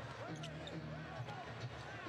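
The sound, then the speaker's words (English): A basketball is dribbled up the court during an NBA game between Miami and Toronto, its faint, regular bounces thudding beneath a commentator's continuous talk. “Achiuwa will take the rebound into the front court on the bounce.”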